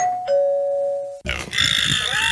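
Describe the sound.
A doorbell sounds a two-note ding-dong chime, higher note then lower, ringing out clearly, then cut off by a loud, noisy burst of sound.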